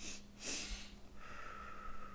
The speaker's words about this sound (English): So the two deep breaths through your nose. Oh, so it's just literally that. Two deep breaths real quick.